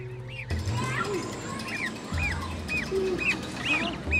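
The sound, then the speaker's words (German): Goose chicks chatter in many quick, high, repeated peeps that overlap in a busy, continuous stream. “Ganz Amy scheint das Kükengeschnatter vorerst noch kalt zu lassen”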